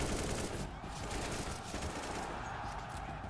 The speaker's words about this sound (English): Now, firing a weapon looks pretty simple. You click your mouse, your character shoots, your target takes damage.